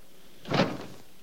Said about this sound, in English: He barges open the door and finds Evelyn